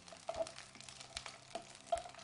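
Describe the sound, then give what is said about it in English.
Faint sizzle of Monterey sausages frying as they are turned in a pan, a soft, steady crackle with a few light scraping stirs and small sharp pops, no talk. “Trust the Monterey Sausage Company. They got an amazing product. Give it a little turn here.”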